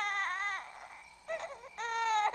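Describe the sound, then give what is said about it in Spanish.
A baby crying from hunger, with a few high, wailing cries separated by short breaks. “Si había algo que Tita no resistía, era ver a alguien llorando de hambre.”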